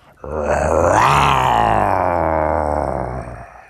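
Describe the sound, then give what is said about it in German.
A human voice imitating a jaguar, with one long, deep, rasping growl-roar that swells quickly, holds loudly for about three seconds and then tails off. “das war ein Jaguar. Richtig, jawoll.”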